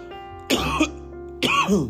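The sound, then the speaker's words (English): Two harsh coughs from someone reviewing a cannabis bud, separate bursts about a second apart, heard over a steady low tonal background. “and from that cough, you know what's going on.”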